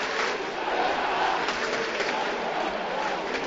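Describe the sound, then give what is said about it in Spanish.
A crowd at a football match in a stadium makes a faint, steady roar of mixed voices just before kickoff. No single shout stands out. “mira cómo está el público. Increíble. Sí, señor, subimos ambiente.”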